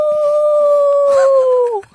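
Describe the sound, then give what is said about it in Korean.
A human voice imitating a wolf howl: one long sustained tone that holds steady, then drops in pitch and cuts off at the end, loud and alone. “늑대는 이렇게 끊이지 않는 하모니를 만들어 무리의 규모를 속이고 주위에 있는 다른 늑대들의 공격을 예방하는 것이다. 네. 제가 굉장히 잘 내는 소리예요.”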